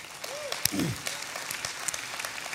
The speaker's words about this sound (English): Let's just clap for that too.